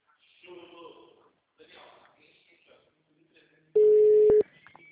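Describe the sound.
Telephone tone on a call to a company's HR department: one loud, steady tone burst cuts in after soft, indistinct voices.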